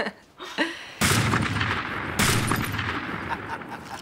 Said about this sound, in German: Es geht doch nichts über eine gepflegte Schießerei unter Männern, nicht wahr? Eine Doublette.